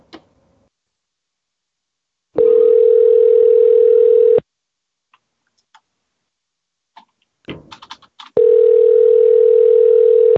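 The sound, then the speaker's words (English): Two long, steady electronic telephone tones, each lasting about two seconds, during a comedy show. Near-silence with a few small clicks and taps separates them. “I do like the part of the show where the phones ring.”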